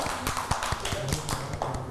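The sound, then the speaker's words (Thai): Children clap for their classmates in a quick burst of many overlapping, uneven claps. “เก่งมากค่ะเด็กๆปรบมือให้เพื่อนๆด้วยค่ะ”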